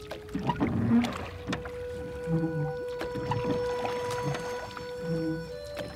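A rowing boat gliding over water at night, its oar worked skilfully and almost silently, giving soft repeated swishes and dips over a steady low tonal hum.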